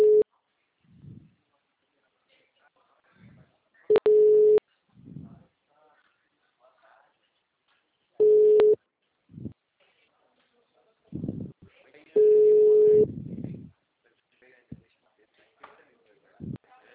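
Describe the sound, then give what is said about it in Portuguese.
Telephone busy signal on a call routed to voicemail: a steady mid-pitched electronic tone repeats four times, about four seconds apart, between stretches of a recorded voice. “Sua chamada está sendo encaminhada para a caixa postal e estará sujeita a cobrança após o sinal. O número está ocupado.”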